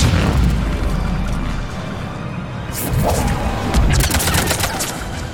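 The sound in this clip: Booming blasts of a psychic power attack in a video game firefight, a few loud, sharp bursts rising over a constant low rumble of battle noise.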